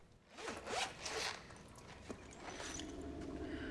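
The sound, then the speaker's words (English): Zipper on a zip-up pouch holding a medical kit is pulled open in a few quick rasping strokes, followed by a steadier, quieter rasp that continues to the end. “pulls a zip-up pouch out of a drawer and opens it to reveal a medical kit with syringes and bottles of liquid.”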